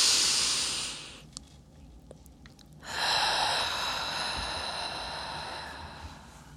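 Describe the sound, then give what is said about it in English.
A slow, deep breath taken during a relaxation exercise: an airy inhale of about a second, a short pause, then a long, soft, breathy exhale lasting several seconds. “Let's take a deep breath.”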